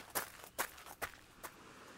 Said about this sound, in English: What are you doing now, Jet? I'm running.